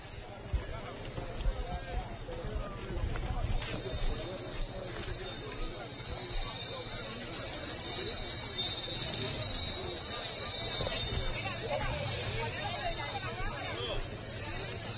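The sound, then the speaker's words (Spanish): Mules' hooves clop as a procession of pilgrims descends a bridge during an entry near Huelva, many steady hoof steps sounding faintly beneath continuous talk and crowd noise. “la fila de adelante pues está frenando un poquito a los mulos porque vamos bajando el puente.”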